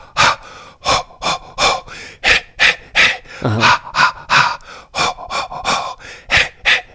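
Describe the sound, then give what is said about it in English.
Many quick, forceful huffing breaths pushed out in a steady rapid rhythm as part of a laughter breathing exercise. Sharp, breathy bursts come alone without talk. “First, they teach you how to breathe. And you huff, huff, huff, huff, and you go, huff,”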